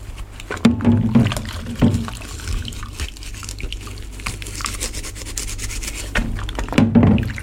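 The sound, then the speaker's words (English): A washing-up sponge rubs around a wet plastic mug in a sink, giving a few louder squeaky strokes near the start and end with quieter, wet scrubbing in between. “In the sink, the washing up sponge lolls around the wet palate of the plastic mug, evoking pre-verbal sounds, like a paranormal voice breaking through.”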